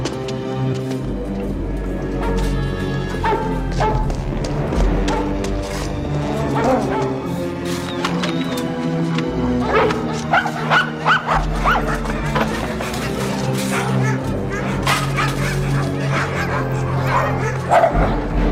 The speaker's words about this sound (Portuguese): Eu gosto quando você provoca os cachorros.